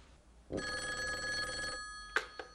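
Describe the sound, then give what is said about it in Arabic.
An old-style telephone bell rings in one sustained metallic burst of just over a second, followed by a couple of sharp clicks; the scene is from an Arabic radio drama. “عادل تليفون علشانك.”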